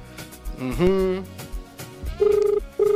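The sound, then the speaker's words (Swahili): A telephone rings on an outgoing call, heard as two steady tonal ring bursts near the end. Voice-like sounds come before them. “Simu inaita.”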